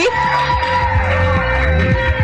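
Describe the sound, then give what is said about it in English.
An audience cheers and whoops to welcome a performer on stage, a loud, continuous mix of shouts and yells with no pause. “can you please give it up a warm welcome applause to Dr. G?”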